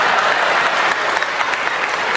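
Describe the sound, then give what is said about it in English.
An audience applauds with dense, steady clapping that holds at an even level for about two seconds, with no talk over it. “I'm going to keep going till you applaud me like you did him.”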